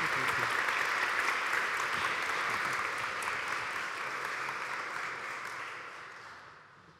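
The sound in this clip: Audience applause welcoming two speakers to the stage, a dense and steady clapping that holds evenly and then gradually dies away toward the end.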